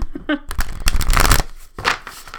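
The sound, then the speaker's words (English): A spellcasting oracle card deck is shuffled by hand: brisk, papery riffling and slapping in quick, dense bursts, briefly pausing before one last flurry. “So let's get on to the card pull. Okay, so as always, because I'm a basic bitch, I pull from the same deck. It's a spellcasting oracle deck.”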